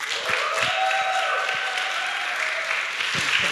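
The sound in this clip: An audience applauds warmly to welcome an elder, a teacher and preacher, stepping up to speak at a church gathering. The dense, even clapping holds steady for several seconds with no voices over it.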